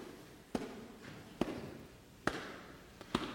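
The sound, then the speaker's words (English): Slow, deliberate footsteps: a few heavy thuds at a steady, unhurried pace, heard alone with no talk. “Have you ever walked so somebody knows that you're coming? Like, I don't want no sneak attack, no secret appearance. Like, I want you to know I'm on my way. Maybe you've heard those steps sometimes.”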